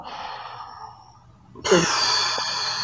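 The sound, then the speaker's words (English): Someone exhales through the mouth during a breathing exercise for stress relief: after a quieter stretch, a long, steady, breathy rush of air starts abruptly and carries on to the end. “Hold to the count of four. And then exhale through your mouth.”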